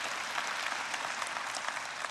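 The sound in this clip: Church audience applause welcoming worshippers across several campuses: an even, continuous wash of many hands clapping, moderately loud and without pauses.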